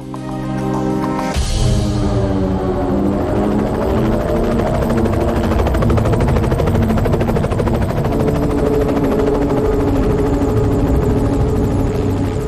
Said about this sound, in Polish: Gdy w niewidzialnym niebie przekuczał helikopter